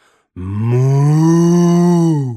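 A cow moos once in a single sustained call of about two seconds. The low, steady, droning tone swells in quickly and holds at a fairly even pitch before ending abruptly.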